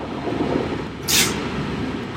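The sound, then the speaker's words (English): A forklift at a distillery hoisting enormous sacks of grain: a steady low mechanical rumble with one brief sharp hiss of air about a second in. “She's on a forklift hoisting enormous sacks of grain.”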